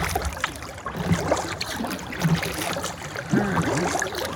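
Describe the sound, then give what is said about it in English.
A paddle strokes through water from a small boat, making soft splashes, gurgles and trickling drips. A few unhurried strokes play alone and stay fairly quiet throughout. “I'll let you hear just a little bit of the serenity for a second of the paddle.”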